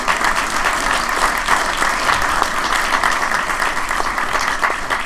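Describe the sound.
Audience applauding a comedian coming on stage, a dense, steady roar of many hands clapping that holds loud throughout.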